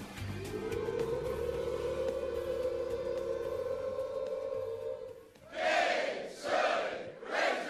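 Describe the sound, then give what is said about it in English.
Crowd of Arkansas Razorbacks fans doing the hog call at a football event: a long massed rising 'woo' held for about five seconds, then three short, loud shouted bursts. “Man, there's a little extra gusto in that hog call tonight.”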